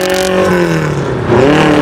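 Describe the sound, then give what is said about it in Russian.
A small convertible car's engine drives through night traffic, a loud steady drone whose pitch sags slightly, then climbs as the motor revs up again. “Маленький автомобиль прокладывает дорогу через ночной трафик.”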